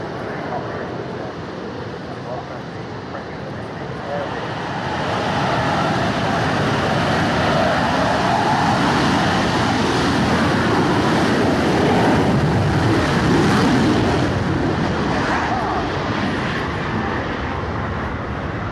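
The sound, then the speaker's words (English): Super Etendard and Rafale fighter jets depart with a loud, broad jet-engine roar. The roar swells about a quarter of the way in and then holds as a sustained, rumbling wash to the end. “Super Entendards departing, and the Rafales are just about to depart now.”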